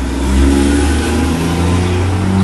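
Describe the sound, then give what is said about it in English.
A truck drives past with a steady, mid-pitched engine rumble that stays loud throughout and swells slightly near the start. “Waiting for that truck to go by.”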